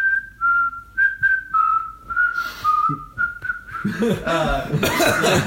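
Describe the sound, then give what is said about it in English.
A person whistles a tune from a film scene. It is a clear, steady high melody in short repeated phrases, and louder, noisier voices break in over the last couple of seconds. “the scene where she's walking down the hallway and she's whistling like the”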